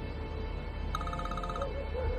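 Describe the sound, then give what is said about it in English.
A telephone rings during a nighttime stakeout in a car, giving one short burst of rapid, trilling electronic pulses over constant low background noise. “She answers phone.”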